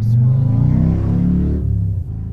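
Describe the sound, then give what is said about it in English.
A motorcycle engine revs in a loud, steady, low-pitched roar that dips slightly near the end. “That was a motorcycle.”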